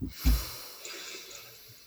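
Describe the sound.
A deep breath in and out during a guided breathing exercise: a sharp nasal draw and a long, soft, airy breath, faint and with no speech.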